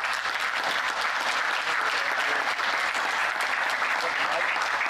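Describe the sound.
Audience applause welcoming a speaker on stage: loud, dense clapping that holds a steady level throughout without pause.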